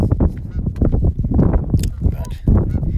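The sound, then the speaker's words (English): Canada geese honking as a flock, with many overlapping nasal calls that keep the sound busy and continuous. Loud throughout, the honks layer over one another with no clear pauses. “and now they're American geese, right? I suppose, right? That's what it would be. They never leave. They're always here.”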